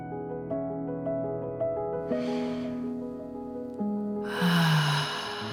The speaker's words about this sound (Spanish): vamos a tomar tres respiraciones profundas, inhalando por la nariz, exhalando por la boca.